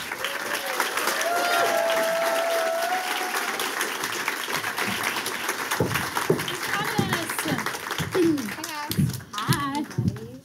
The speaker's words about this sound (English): Can you all join me in welcoming the cast of Mean Girls on Broadway to the stage?